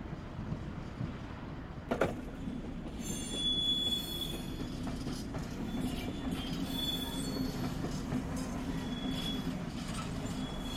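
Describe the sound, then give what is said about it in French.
A train at a railway station: a steady low rumble of rolling railcars, with thin high wheel squeals coming and going and a sharp metallic clank early on. “Là, on est en gare d'Anotte.”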